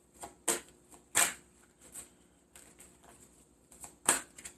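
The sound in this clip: Tarot cards are shuffled and drawn, giving brisk riffling bursts, a few louder ones separated by softer papery rustles and handling sounds, with no talk.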